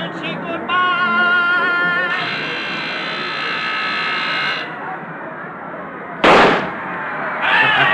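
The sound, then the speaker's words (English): A starting gun fires once to begin a bicycle sprint race. It is a single sharp, loud crack near the end, after several seconds of steady, noisy background sound. “There they go. Look at that gun.”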